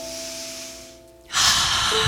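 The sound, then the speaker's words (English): A deep breath is drawn in as a loud, sustained, airy rush that starts abruptly midway through and continues to the end, after a quieter stretch with soft steady tones. “let's just take a deep breath in.”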